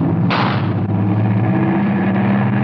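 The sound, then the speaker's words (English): A single sharp gunshot cracks near the start and trails off in a decaying burst over a dense, steady low rumble that continues throughout. “Did someone shoot?”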